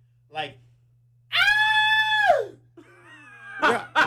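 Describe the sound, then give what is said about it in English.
A voice imitates a high-pitched scream, one shrill, sustained cry lasting about a second, set between short bursts of talk. “You scream like that every day.”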